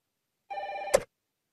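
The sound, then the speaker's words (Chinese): Telephone ringing: a single short electronic ring with a clear, bright tone, cut off by a sharp click as it stops. No talk over it. “哦，对不起了，我先接电话。”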